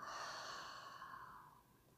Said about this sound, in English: begin to invite a deep breath into the body. Open the mouth, exhale, let go.